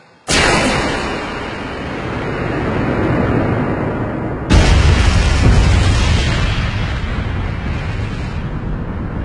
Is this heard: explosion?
yes